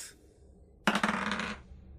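Dice rolled for a strength check in a tabletop fantasy role-playing game, giving a short rattling clatter of several quick, bright hits that settles within about half a second.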